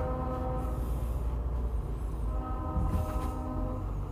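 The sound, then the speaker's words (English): A train passes through town with its horn blaring steadily over a heavy, continuous rumble of rolling wheels and cars. “Train's in town, I guess.”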